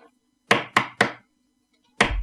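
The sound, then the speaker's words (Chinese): Knocking on a door: three quick, sharp knocks in a row, a pause, then another knock, heard alone and fairly faint. “这时候有人敲门”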